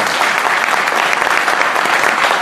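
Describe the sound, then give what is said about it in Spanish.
Loud, dense audience applause at a broccoli conference, continuous and even from start to finish. “Fuerte aplauso también para él.”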